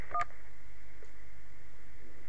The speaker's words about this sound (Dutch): Belt u voor een reparatie of onderhoud aan uw woning, toets dan nu een 1.